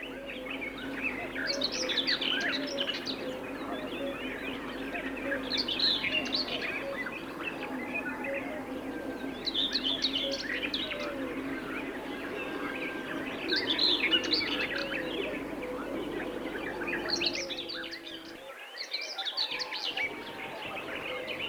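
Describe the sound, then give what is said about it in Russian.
A common whitethroat sings in flight, with short scratchy, chattering song phrases that return every few seconds over a faint, steady natural background. “И лишь серая славка поет в полете. Вот, слышите, проносится над головами ее песня.”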